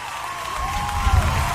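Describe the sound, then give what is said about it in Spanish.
Brief burst of applause with some crowd noise, given to a group of singers at a casual gathering, rising slightly in intensity across about a second and a half. “El aplauso para ellos.”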